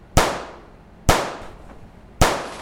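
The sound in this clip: Gunshots: three sharp, loud reports spaced about a second apart, each with a short decaying tail and quiet between them.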